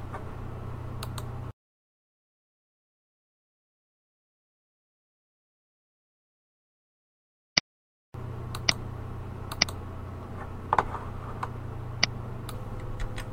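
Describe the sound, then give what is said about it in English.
A single sharp computer mouse click in an online course tool, a crisp isolated tick standing alone in near silence. “So let us click on Messages in Course Tools.”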